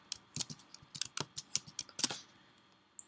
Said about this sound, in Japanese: 今回はテスト用なのでテスト CTA というふうに入力します。